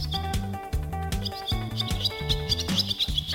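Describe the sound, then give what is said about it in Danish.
Barn swallow twittering song: rapid high chirps and trills in quick bursts over a steady, low tonal backdrop. “Landsvalen er en super fin lille flyver, der både er hyggelig og nem at jagtage, når den sidder under en tagryg og prøver på at mætte sine sultne unger.”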